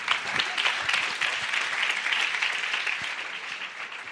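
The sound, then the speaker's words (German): Applause from an audience at a church conference: steady, dense clapping that holds at an even level for about four seconds. “Gib mal meinem Christian einen kräftigen Applaus.”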